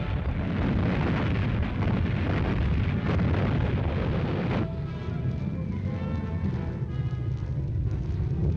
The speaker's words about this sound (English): There go the oil tanks, valuable to the Nazis for refueling shipping that now will never set sail again.